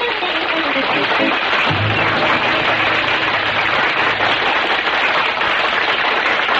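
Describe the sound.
Loud, steady applause from a studio audience welcoming a guest star on a country and Western music show, with dense clapping that fills the whole stretch without a break.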